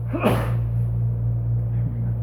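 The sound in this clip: A single short, sharp sneeze bursts out near the start during an Arabic grammar lesson. It sits over a constant low electrical hum, and quiet follows.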